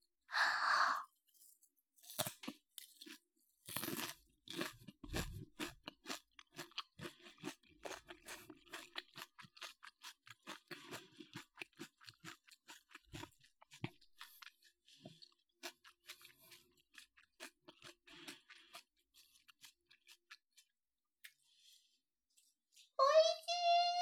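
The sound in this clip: Close-up ASMR chewing of food topped with salted kelp: many sharp, crackling crunches and bites in an uneven rhythm, ending with a brief voice.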